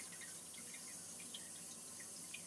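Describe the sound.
Water runs slowly from a tap that fills only at a crawl because of a plumbing fault. It makes a faint, steady trickling hiss with a few soft drip-like notes.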